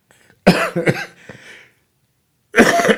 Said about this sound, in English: you can hear that difficulty in my cough